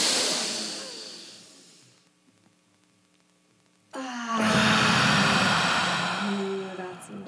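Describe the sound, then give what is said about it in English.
Deep, airy group breathing: a long breathy rush that slowly fades, a brief hush, then a louder, sustained breathy whoosh. “Let's do an inhale together.”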